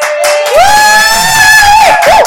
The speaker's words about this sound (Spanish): Pero bueno, aquí tenemos público. A ver, ¿dónde están las barras?